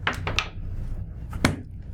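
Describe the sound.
Dice are rolled in a tabletop game: a quick rattle of three or four clattering knocks, then, after a short pause, one more sharp hit on the table.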